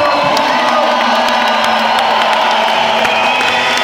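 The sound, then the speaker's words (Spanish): Audience cheering and clapping to celebrate Peru's win, a continuous loud crowd roar mixed with whoops and shouts that holds steady for nearly four seconds. “Hoy aquí, aplauda a Perú, que ha ganado”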